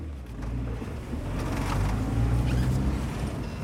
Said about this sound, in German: Obwohl es schon dämmert, fährt Idir mit mir noch etwas weiter in die Wüste hinein.